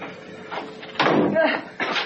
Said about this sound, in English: I'd been locked in the room for no more than 10 minutes when the door was opened and Maria and Joseph were roughly pushed inside.